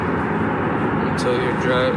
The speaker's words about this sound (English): it's a car ride instead of a bike ride this time. Never realized, like, how loud the road actually is, like, how loud driving is.